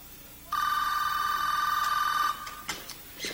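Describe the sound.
A telephone rings once in a tense indoor standoff scene: a bright, steady trilling tone lasting about two seconds, followed by faint rustling noises.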